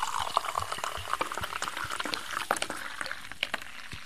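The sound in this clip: A foaming drink pours into a glass with a steady, frothy, fizzing hiss, full of many tiny crackling bubbles, and stays fairly soft throughout.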